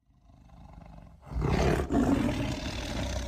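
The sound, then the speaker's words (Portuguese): Tiger roar: a low rumble builds quietly, then a loud, deep, sustained roar breaks in, pauses briefly and carries on rough and powerful to the end. “Se eu te perguntar que som é esse, você vai dizer que é o som de um tigre. Tá certo, é isso mesmo, é o som de um tigre.”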